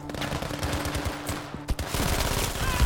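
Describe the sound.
Automatic weapon fire sprays from a gun in a Battlefield V video game: dense, rapid bursts of shots run nearly continuously and stay loud, with a brief dip in the middle before the firing surges again.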